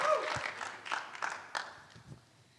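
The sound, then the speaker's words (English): Audience applause welcoming a speaker at a church fine arts showcase: a steady wash of clapping with a few louder surges that gradually thins and fades toward the end. “Join me in putting your hands together to welcome her”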